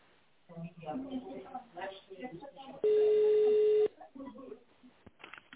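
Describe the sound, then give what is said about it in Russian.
A single telephone keypad tone sounds for about a second, steady and fairly loud, during a recorded voice menu on an office phone line. A voice speaks before and after the tone, with a thin, narrow telephone quality. “Если вам известен внутренний номер абонента, наберите его в тональном режиме или дождитесь ответа оператора.”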